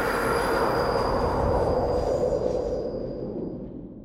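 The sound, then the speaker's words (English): A subway train approaches, well over 100 decibels: a loud, broad rumbling roar with a thin, high metallic squeal of wheels on rails. It eases off slightly toward the end. “everybody just sort of like stands there and endures the sound of the subway approaching, which it's well over 100 decibels.”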